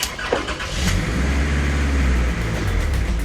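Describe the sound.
A yellow estate car's engine starts with a brief burst, then settles into a steady, loud, low mechanical rumble that continues to the end.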